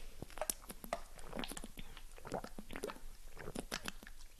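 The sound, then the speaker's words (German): A quick sip of a drink, heard as a busy run of wet mouth clicks, smacks and swallowing noises, many short sharp events close together with no talk. “Ich muss mal kurz einen Schluck trinken.”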